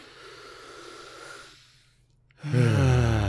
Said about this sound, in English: As we do so, let's take a deep breath.